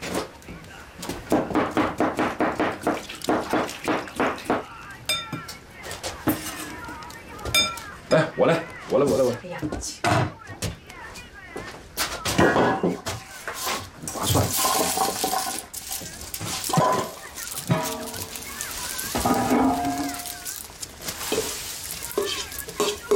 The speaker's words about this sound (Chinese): 做饭呢？吃啥呀？